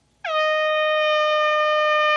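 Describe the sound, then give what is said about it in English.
A single air horn blast cuts in abruptly after a brief silence and holds at a steady, loud, brassy pitch until the end. “What's an air horn? Air horn, yeah.”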